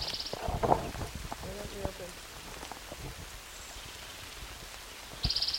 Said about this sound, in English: Raining.